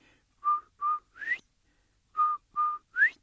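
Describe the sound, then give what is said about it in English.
A person whistles an imitation of a quail's call in two phrases of three clear notes. In each phrase, two steady notes are followed by a higher note that slides upward, with silence between the phrases. “No, Quail's gone. And so is his beautiful whistle. And way off in the distance, he hears that beautiful sound.”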